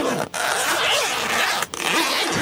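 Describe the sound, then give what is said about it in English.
A body bag zipper is pulled shut with a loud, continuous raspy zip that is interrupted by two brief breaks before it runs on again. “Zipping up the body bag. We're zipping up the body bag.”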